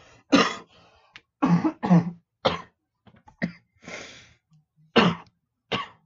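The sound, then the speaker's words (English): Coughing fit: many harsh, throaty coughs come in separate bursts, some single and some in quick pairs, with short pauses and breaths between them. “sorry about that. I had to cut off. And sorry, I had a little coughing fit there.”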